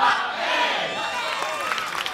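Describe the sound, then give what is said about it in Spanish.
A crowd at a gospel performance shouting amen together: one loud, sustained collective shout of many voices. “Si todos quieren que siga tocando, quiero que digan amén.”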